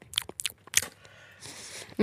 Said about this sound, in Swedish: Vänta, ska jag tugga du den? Det är munnen nu.